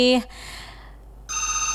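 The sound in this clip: A telephone rings for the next caller: a short bright ring cuts off, a quiet pause follows, then a fresh electronic ring returns with a rapid pulsing warble.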